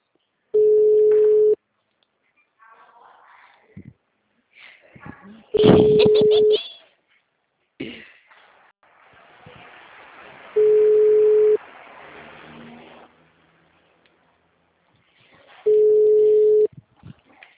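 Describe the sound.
Telephone ringback tone on an unanswered call: four steady, mid-pitched tones, each about a second long and spaced roughly five seconds apart, with faint muffled noises in the gaps.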